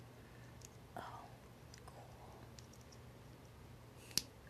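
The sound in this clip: A plastic part snaps into place with a single sharp click near the end, after faint handling noises and quiet murmuring.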